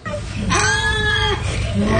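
A pot-bellied pig at an assisted living facility gives one drawn-out, high, tonal squeal lasting under a second, fairly loud and steady in pitch, over a constant low background hum.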